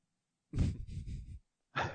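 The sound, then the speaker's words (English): Human yawn: a drawn-out, breathy voiced exhale lasting about a second. After a short pause, another breathy vocal sound begins. “How am I yawning in the middle of a podcast?”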